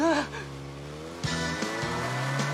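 Car engine driving away in a dubbed film scene where a man claiming to be police commandeers the car: a faint, steady engine drone whose pitch steps abruptly a few times midway.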